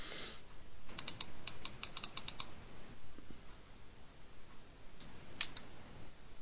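Typing on a computer keyboard: a quick run of light, crisp key clicks, a pause, then a couple more taps near the end, all fairly faint.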